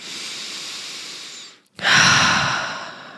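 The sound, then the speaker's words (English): A person taking a slow, airy breath that fades into a brief silence, followed by a second, louder and fuller breath that gradually tapers away. “you know what, just breathe. Just take a breath. Just breathe.”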